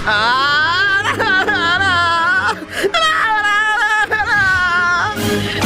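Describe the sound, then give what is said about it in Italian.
A voice sobs and whimpers in loud, wavering, high-pitched wails that run almost continuously for several seconds in a comedic sketch. “perché piangi?”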